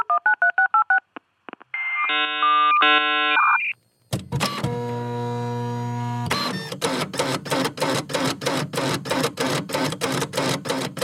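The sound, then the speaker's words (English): Geek-O-Matic news machine sound effect switching on: a quick run of electronic dial-tone beeps and chirps, a short silence, then a loud rhythmic mechanical clatter like a printer running, with no voices. “But first, Tim, flip the switch on the Geek-O-Matic news machine.”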